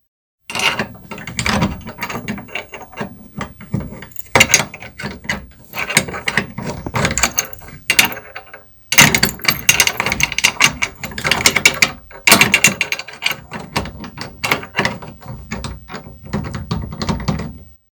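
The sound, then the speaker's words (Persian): An old Qajar-era key turning and rattling in the broken lock of a chest that won't open: many metallic ratcheting clicks and clunks in repeated bursts, with a brief pause midway before the jiggling resumes. “قربانت گردم باز نمی شود گویا قفل خراب گشته با های دیگر نیز امتحان کن باید باز شود”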